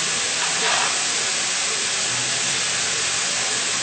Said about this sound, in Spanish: Está bien, está a fuego lento, sofreír los champiñones, los hongos.